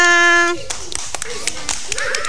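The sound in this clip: Group hand clapping during a children's clapping-game song: a brief sung or voiced tone at the start, then many uneven, sharp claps with a faint voice underneath.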